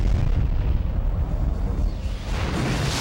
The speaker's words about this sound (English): An animated bomb is dropped.